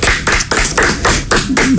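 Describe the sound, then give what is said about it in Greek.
One person clapping hands, loud and close, in a steady, evenly spaced series of sharp claps at roughly four per second, with no voices. “Εγώ χειροκροτάω εδώ λόγω του ξαδέλφου του Λάζαρου”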